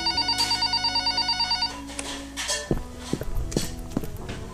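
A telephone bell rings in a rapid, even trill of metallic pulses for about a second and a half, then stops. A few scattered clattering knocks follow.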